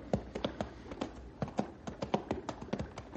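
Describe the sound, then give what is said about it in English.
Horse hooves clip-clop on a ride along a mountain stream. Many hoofbeats make a steady, clattering rhythm of sharp knocks, with no talk over them. “suppose you join Ralph and myself as we're riding along a mountain stream not very far from Knotty Pine.”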